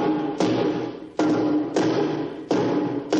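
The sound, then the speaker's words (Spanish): Two men pound a gate at a wartime gun emplacement with sledgehammers: four heavy, booming thuds at uneven intervals, each ringing and fading out, with no talk. “Fuera dos hombres golpean el portón con mazas.”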